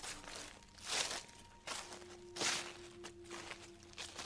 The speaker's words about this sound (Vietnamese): bất ngờ đằng sau, có tiếng bước chân xào xạc vang lên